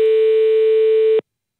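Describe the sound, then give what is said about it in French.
A telephone line ringing on a call to a landline number, heard as one steady, loud ring tone that lasts just over a second and then cuts off into silence. “Allez, il nous reste quelques minutes, on appelle vite fait cet autre numéro.”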